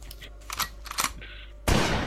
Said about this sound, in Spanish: A Walter le acaba de explotar el arma eh, en, la mano.